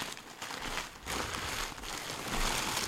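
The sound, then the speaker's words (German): Paper crinkles and rustles as a gift, a chalice, is unwrapped, a continuous fairly loud crumpling with brief tearing textures and no clear pauses. “Du darfst jetzt auspacken.”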